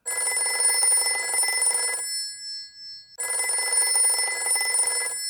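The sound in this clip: Telephone bell ringing in two long, bright, insistent bursts separated by a pause of about a second, loud and alone.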